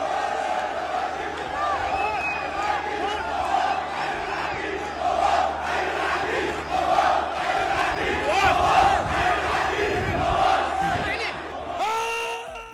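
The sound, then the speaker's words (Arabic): Iraqi Al-Shorta club football fans chant for Colonel al-Mawas. A massed crowd keeps up a loud, sustained chant with a rhythmic pulse throughout. “طبعا هذه الفرحة وهذه الهتافات التي استمعنا إليها تهتف للعقيد المواس”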